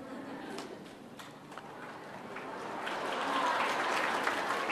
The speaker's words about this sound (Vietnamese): Các bạn vỗ tay nhiều quá thầy rung rồi đó.